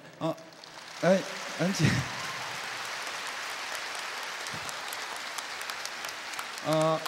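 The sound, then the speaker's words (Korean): Audience applause at a televised concert: a dense, steady patter of many hands sustained for several seconds, with a voice speaking briefly before and after it. “지금 텔레비를 하고 있기 때문에 박수를 많이 안 치시는 게 좋습니다. 왜 그러냐면은 더우니까 땀나시니까 박수 치면 이 손에 열이 나가지고 박수 많이 치지 마세요.”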